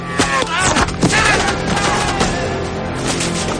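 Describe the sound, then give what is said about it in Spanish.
Gunfire from Navy SEALs in the 2003 war film Tears of the Sun, a loud, dense fusillade of many sharp shots mixed with a few deep booms, continuing without a break. “Los rebeldes llegan hasta una loma que es sobre la llanura, mientras los Seals disparan escondidos entre los verdes forrajes de la planicie.”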